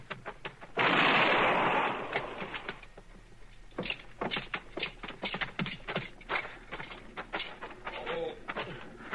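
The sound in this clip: A single gunshot rings out in a western radio drama, a loud burst that dies away over about a second, followed by people talking.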